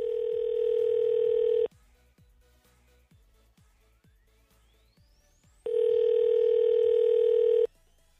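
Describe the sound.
A telephone dial tone hums steadily, cuts out while a number is dialed as a run of soft clicks, then the same steady tone returns for about two seconds.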